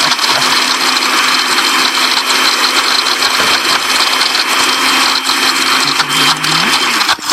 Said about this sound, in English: We're going to put that top on it. We're going to go ahead and start blending that on up. Okay. We're going to do a serious blend.